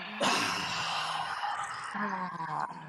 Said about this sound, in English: Big inhale through the nose. Exhale out of the mouth.